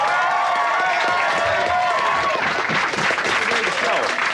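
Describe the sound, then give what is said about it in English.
Audience applause welcoming two performers: a dense, steady wash of clapping with crowd noise that fills the whole stretch without a break. “ladies and gentlemen, if I have your attention from the Rio Statics, please put your hands together and welcome Tim and Martin.”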